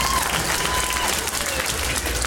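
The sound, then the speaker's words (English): Audience applause at a comedy club: dense, steady clapping from a crowd that carries on at an even, loud level through the whole stretch without breaking off. “And, yeah, clap it up.”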